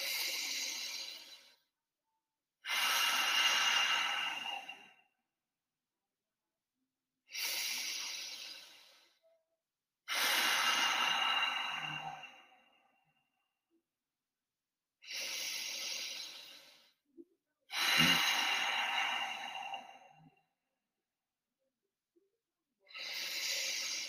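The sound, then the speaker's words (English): Long, slow breaths drawn in and let out through the nose: seven soft, airy breath sounds, each about two seconds, separated by quiet pauses in an even rhythm, with no talking. “So in through your nose, out through your nose. Long breath in, long breath out.”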